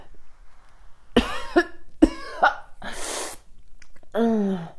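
Gagging and coughing as a hand is pushed down a person's throat: several harsh bursts, fairly loud, with strained voiced sounds between them and no talking.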